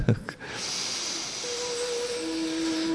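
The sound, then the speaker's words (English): A slow, deep breath in during a breathing exercise, a long steady breathy hiss lasting more than two seconds after a brief rough sound at the start. “breathe in slowly and gradually.”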